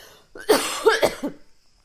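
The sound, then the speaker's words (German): A person coughs a few times in quick succession, harsh, forceful bursts that fade into quiet breathing. “Warte, ich muss husten.”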